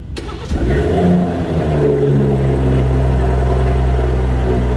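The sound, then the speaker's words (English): Engine starting up on a new Homage Edition vehicle: a brief crank catches into a loud rev, then settles into a steady, deep, rumbling idle. “That's the startup of a particular vehicle. Is that the old or is that the new? That is the new Homage Edition.”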